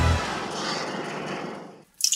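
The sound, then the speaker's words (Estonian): Water from a dripping kitchen tap, heard as a steady hissing trickle that cuts off abruptly and is followed by a brief bright drip. “ma tilgun . kurdab köögikraan .”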